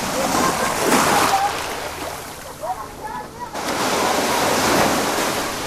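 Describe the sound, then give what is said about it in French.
Sea waves surge on the shore in broad, rushing swells that ease into a quieter lull midway before building up loud again. “Bord de mer.”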